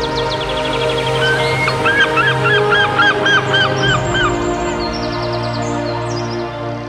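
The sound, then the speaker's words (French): Birds calling in loud, rapid honks like geese, many repeated calls in quick runs over a steady, dense background. “des oiseaux pour chanter dans le ciel. Quelle symphonie!”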